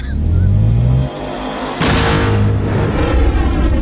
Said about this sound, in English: Fennec, once again, takes care of business for him, hits a switch, seismic charge.